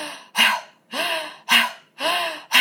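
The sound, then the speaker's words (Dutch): A voice imitates very rapid breathing in and out through the mouth, as done lying on the floor during a breathing exercise. About five quick, loud breaths alternate in an even rhythm, with no talk. “We mochten allemaal op de grond gaan liggen en we moesten heel snel in- en uitademen door onze mond.”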